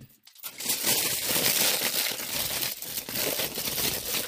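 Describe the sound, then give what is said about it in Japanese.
Aluminium foil pulled from its roll and crinkled: a dense, continuous crackling rustle that starts after a brief quiet moment and stays fairly soft, with sharper crinkly bursts throughout. “あ、このアルミホイル。ちょっと使うときはもっと広く取ろうかなって思うんだけど”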